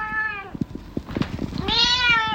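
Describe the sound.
A cat meows twice in high, drawn-out calls, once at the start and once at the end, with soft tapping and rustling in between; the animal may be excited or hungry.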